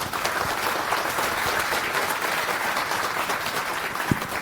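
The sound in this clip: Audience applause welcomes a speaker onto the stage at a talk. The clapping is dense and steady, holding at an even loudness from start to finish with no voices over it.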